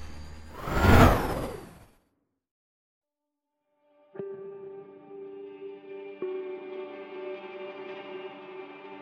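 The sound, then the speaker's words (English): A hover vehicle, an all-terrain glider, lifts off: a broad whoosh fades into silence, then a steady humming drone with layered tones starts abruptly and holds, stepping up slightly partway through. “The soft glow of blue light emitted from the bottom as the vehicle slowly rose about 2 feet off the ground. I waited for the kickstands to retract, and then I was off.”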